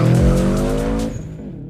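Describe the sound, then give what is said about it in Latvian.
Autocross race cars roar and squeal through a skid during a Latvian autocross championship round at the Pauska sports complex. A loud harmonic engine whine holds for about a second, then cuts off and fades. “Latvijas autokrosa čempionāta 4. posms leģendārajā mūsu sporta kompleksā Pauskā.”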